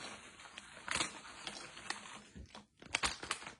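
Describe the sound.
Crinkling plastic bag of sweet Creole onion flavoured snack chips being opened, quiet irregular rustles and crackles with a few sharper crunchy bursts near the end.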